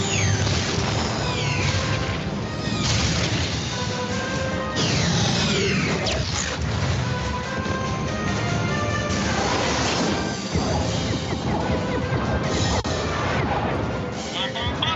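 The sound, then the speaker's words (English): Rocket explosions in a Star Wars battle scene over Mandalore: dense, continuous action sound with many booms and crashing blasts, and voices speaking over the noise. “Check this clip out. Rockets! Rockets! I see them!”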